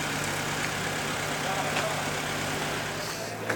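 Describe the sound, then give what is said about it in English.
A couple of builders' vehicles on a dockside produce a steady, low engine rumble throughout, with a faint knock near the end. “There's a couple of dockside builders' vehicles driving towards me, so I'll just be quiet for a moment.”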